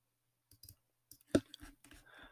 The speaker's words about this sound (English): Hold on, let me click on it.